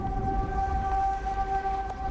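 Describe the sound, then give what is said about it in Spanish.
An emergency siren in Gijón sounds an alert for a serious incident in electro-intensive industry: a steady, unwavering mid-pitched tone with fainter overtones, held throughout over a dense low rumbling noise. “Este es el sonido, la sirena que indica la presencia de una alerta en el caso de un incidente grave en la industria”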